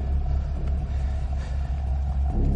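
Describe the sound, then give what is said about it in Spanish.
A taxi drives past close by among parked cars, giving a low, steady engine rumble with rolling road noise that stays loud throughout. “El taxi pasa cerca de ellos.”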